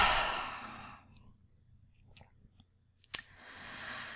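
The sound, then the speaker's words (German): A deep breath is exhaled through the mouth during a guided relaxation exercise. It makes a breathy whoosh that fades over about a second, followed by quiet, a few faint clicks, and another soft breath swelling at the end. “Halt die Luft für einen Moment an und über den Mund ausatmen, Schultern nach unten fallen lassen.”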